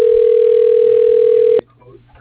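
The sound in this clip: A telephone tone plays while a call is being transferred: one steady, mid-pitched tone holds for about a second and a half, then cuts off abruptly into faint low noise.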